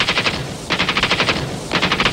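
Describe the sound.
Automatic gunfire during an assault on a hospital, with orders to fire at will: three rapid bursts of sharp, loud shots, the middle burst the longest, and no voices.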